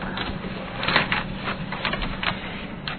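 A photocopied study-guide page is tucked under, giving soft paper rustling with scraping and crinkling bursts over a steady low background noise.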